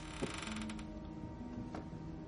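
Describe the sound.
A door creaks as it is moved in a ransacked room, giving a strained, wavering groan with thin tonal squeals that drags on for about two seconds without any voices.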